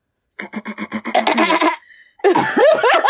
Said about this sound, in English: now she got me choking.